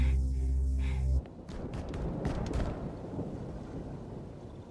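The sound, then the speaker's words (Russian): Hail pelting down in a storm, a dense crackling patter with a few sharper hits, starting just as a loud, low humming tone cuts off abruptly and then gradually thinning out. “Град прекращается. На небе появляется солнце.”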